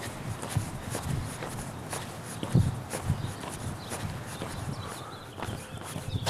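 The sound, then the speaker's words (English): Footsteps on a trail walk: faint, irregular steps crunching along, with a few heavier thuds standing out among softer scuffs. “We'll call that a successful walk and a successful recording.”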